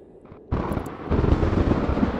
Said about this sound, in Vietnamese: Bỗng một luồng chớp rạch ngang không gian đen thẫm, kéo theo tiếng nổ đinh tai.